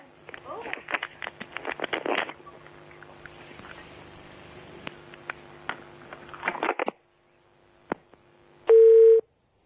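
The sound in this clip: A telephone dial tone after a call disconnects: crackling line noise with scattered clicks gives way to near silence, then a brief, loud, steady tone sounds near the end.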